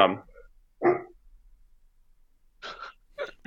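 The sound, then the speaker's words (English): A dog barks a few times: two short, sharp barks, a pause, then a few quicker, higher barks, with quiet gaps between them. “sorry about the dog.”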